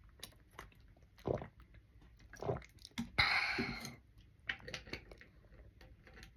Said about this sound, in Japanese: ちょっと飲み物飲ませてね。